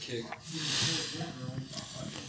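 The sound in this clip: Steady hissing fizz as Nerds candy is dropped into a drink, a continuous bright sizzle that swells briefly then settles, with voices murmuring underneath.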